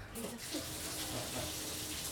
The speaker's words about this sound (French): Tu parles, tu parles, je vais te le faire couler, ton bain.